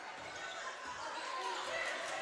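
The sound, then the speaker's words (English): Basketball dribbling on a court during overtime of a women's game. The bounces sit under steady, dense background noise that fills the whole clip at an even level. “Jocelyn Bennett picks up her dribble, needs some help”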